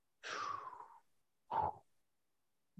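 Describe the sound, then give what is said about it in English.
Deep breaths taken to help recall a memory: a long, airy breath followed after a pause by a shorter, sharper one, both clear against silence. “Why you breathe like that, son? Because I don't remember it. I was trying to remember. I thought if I took a deep breath, you know how the movie, they take a deep breath and close their eyes, they start remembering some shit.”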